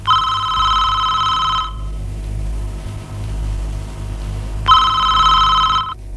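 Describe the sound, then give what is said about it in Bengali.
A telephone rings with an incoming call: two long, bright trilling rings separated by a pause of about three seconds, over a steady low rumble. “খোকা phone করছে রে”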